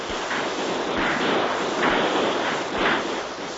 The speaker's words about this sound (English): Have your men fire a volley over the stockade.